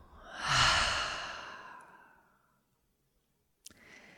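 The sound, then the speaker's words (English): A deep breath let out through an open mouth: one long, airy exhale that swells quickly, then fades away over about two seconds. A quiet pause follows, then a faint short click. “Let's take a deep breath into that. Open mouth, let it go.”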